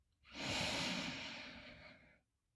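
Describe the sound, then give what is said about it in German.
A single slow inhale through the nose, drawn in during a guided seated breathing exercise: a soft, airy rush of breath that swells quickly, holds steady for nearly two seconds, then tapers off into quiet. “Dann atme einmal über die Nase ein.”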